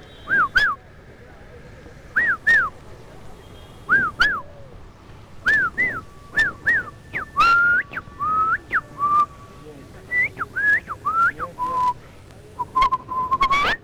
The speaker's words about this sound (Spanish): Perfecto el silbido.